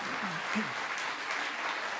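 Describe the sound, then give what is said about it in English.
A live audience claps in steady, even applause, with a voice briefly audible through it. “Well, thank you for applauding that.”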